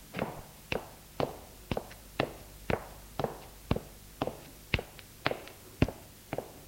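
Footsteps climbing a staircase: thirteen firm, evenly spaced steps in a steady walking rhythm, fairly faint and alone.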